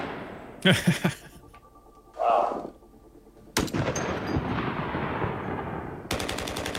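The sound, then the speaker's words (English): Gunshots are fired into a hole to capture their reverberant tails. Several sharp, loud blasts each trail off into a long, dense decaying rumble, with a softer burst in the gap between them. “So we went and captured tails of guns in different environments through our weapon chutes. I'm just gonna shoot this into a hole.”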